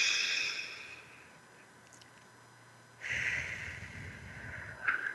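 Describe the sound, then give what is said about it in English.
A deep belly breath taken during a guided relaxation exercise: a soft, airy hiss that fades into a quiet pause, followed by a longer, fuller breathy blow-out, all faint and without talk. “Take a deep breath from the belly and blow out.”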